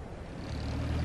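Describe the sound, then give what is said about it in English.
Large-wheeled all-terrain buses drive across snow with a deep engine rumble that grows slightly louder over the brief stretch heard, with no voices. “Two of the large-wheeled all-terrain buses rumble off across the snow.”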